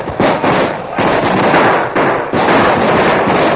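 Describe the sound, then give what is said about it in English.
Gunfire exchanged between outlaws and an advancing posse in a radio drama: loud, dense crackling volleys of shots in repeated bursts, filling the whole clip with barely a pause. “Like a well-drilled infantry team, the outlaws suddenly dropped to their knees, drew their guns, and fired, to be answered almost immediately by the advancing posse.”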